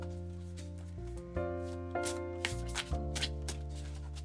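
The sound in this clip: A deck of animal totem cards is shuffled, with soft, repeated riffling bursts over steady background music.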